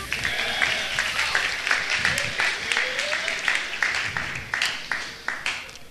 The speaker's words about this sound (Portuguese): Aplaudiu o ratinho ali.